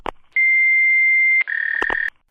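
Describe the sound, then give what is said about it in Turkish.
An answering machine beep before a message: a short click, then a long steady high-pitched tone, followed by a second slightly lower tone broken by a few clicks, ending in silence. “Lütfen sinyal sesinden sonra mesaj bırakın.”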